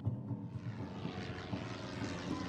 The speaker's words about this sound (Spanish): El avión despegó a las 14.46 horas de ese 5 de mayo.